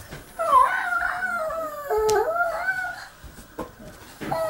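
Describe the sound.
Wavering, whimper-like cries from a young child of four to five who cannot sit, inside a round cage built from water pipes. The mid-high tones bend and break off repeatedly, continuing for several seconds without spoken words.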